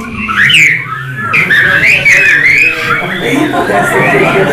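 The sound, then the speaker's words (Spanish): A person demonstrates different ways of whistling during a training session, producing loud, wavering high-pitched whistles whose pitch slides up and down continuously, with a brief dip partway through. “¿Cuántas formas de silbar saben? El que sepa más de dos, levante la mano.”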